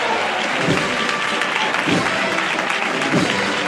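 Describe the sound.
A crowd applauds at a Holy Week procession in Seville during the Madrugá. The clapping is steady and thick, with a murmur of voices mixed in and a few soft low thumps.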